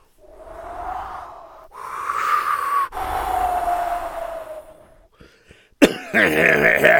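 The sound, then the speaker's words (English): A man coughs and hacks from wind-blown dirt caught in his throat, in long, strained, voiced bursts, then a few short catches and a final harsh rasp. “What is going on? It's blowing dirt in my throat over here.”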